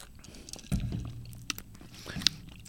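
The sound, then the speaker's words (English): Eggnog being drunk for the first time, with a few soft wet gulps and mouth sounds spread through a quiet stretch, one fuller swallow early on and a sharper smack near the end. “Let's take this drink here, eggnog, for the first time.”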